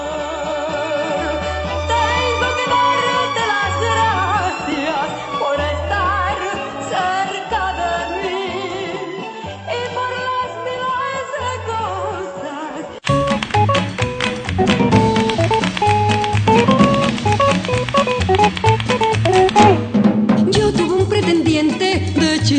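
An instrumental passage of a song plays alone with no voice, a steady melodic, harmonically rich accompaniment that turns louder and fuller about halfway through.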